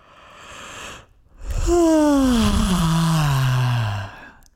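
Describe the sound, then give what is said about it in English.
A person gives a big, drawn-out yawn as a voice-warm-up stretch in yoga. It opens with a breathy intake, then a long, loud, groaning vocal sound slides steadily downward in pitch before fading into breath. “One of the stretches that you can do specifically for your voice is yawning. Give yourself a good”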